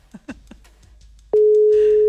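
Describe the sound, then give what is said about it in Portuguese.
Telephone ringback tone heard by the caller while a phone-in call connects: after a few brief faint vocal sounds, a loud steady single-pitch tone starts partway through and holds unbroken to the end. “primeiro toque.”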